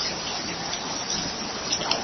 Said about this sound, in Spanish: Pero, afortunadamente, no había habido lluvia así como hoy. Hacía rato que no llovía así como hoy. Hacía fuerte.